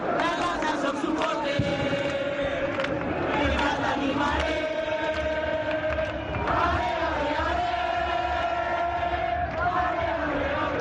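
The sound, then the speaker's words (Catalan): Football fans celebrating on the Rambles at Canaletes after their team clinched the league title with a 2-0 derby win: a loud, continuous crowd roar with chanting and singing voices throughout. “Aquest és el so de les Rambles, de Canaletes, després del partit amb el micròfon del Juan Arias.”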